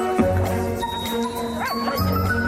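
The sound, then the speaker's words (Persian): Dogs greeting each other with short yips and a wavering whimper, fairly loud over a sustained tonal background. “نگران نباش، چیزی نیست، سگا اینطوری به هم سلام میکنن.”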